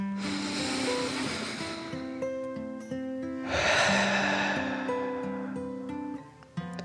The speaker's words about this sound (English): They took a deep dragon breath in and out.